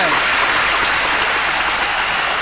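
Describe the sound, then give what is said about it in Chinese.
Arena audience applauding warmly after a women's singles win at the 41st World Table Tennis Championships, a thick, unbroken roar of clapping at a steady, loud level. “全场响起热烈的掌声。”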